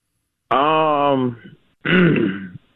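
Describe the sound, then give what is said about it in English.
Two loud throat-clearing bursts: a longer, rasping, voiced rumble, then after a short pause a second, shorter gruff clear. No other sound accompanies them. “I cleared my throat on that one.”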